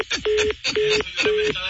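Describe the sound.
A telephone call cut off by hanging up, followed by three short, steady beeps of equal length separated by brief gaps.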